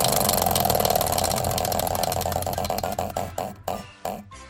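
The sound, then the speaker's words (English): A spinning wheel of words clatters with rapid ticks. The ticks gradually slow and spread apart until a last few separate clicks bring it to rest. “It's up on the wheel. Let's give it a spin and find out next week's right now.”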